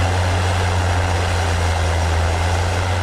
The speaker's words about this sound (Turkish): İş makineleri bölgede gece gündüz çalıştı.